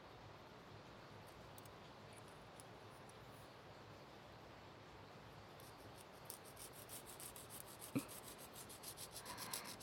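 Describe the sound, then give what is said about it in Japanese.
Fingernails are filed smooth with a finer-grit nail file, making a soft, continuous rasping of many quick strokes. The strokes grow slightly more pronounced toward the end, and no one speaks. “少し目の細かいものに変えていきます。”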